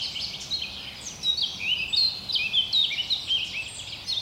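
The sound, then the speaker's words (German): Birds singing in a forest. Many short, high chirps and twittering notes come one after another over a steady background hiss. “Die Vögel sind natürlich alle schon längst aufgewacht.”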